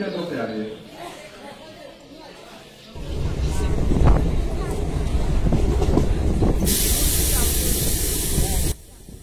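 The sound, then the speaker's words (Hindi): Inside a moving passenger train in India: a softer, murmuring opening gives way to a loud, steady rumble and rattle of the running train, with a bright hiss joining near the end before cutting off. “मेरी आवाज नहीं होगी, बल्कि एक चलती फिरती दुनिया की अपनी आवाजें होती हैं, भीतर के दृश्य होंगे। हम इस तरह से दिखाना चाहते हैं ताकि आप महसूस कर सकें कि आज का भारत किस तरह आज भी ट्रेन में यात्राएं कर रहा है।”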